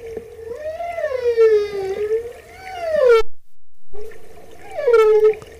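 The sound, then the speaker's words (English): Humpback whale song: long, moaning calls with rich harmonics that swoop up and down in pitch, broken by a short silence before another rising, wailing call. “Whale. That's a whale. That is the sounds of the humpback whale.”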